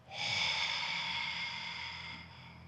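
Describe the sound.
A long exhalation through an open mouth during a breathing exercise. The soft, airy rush swells quickly and then fades gradually over about two seconds, heard alone with no talk.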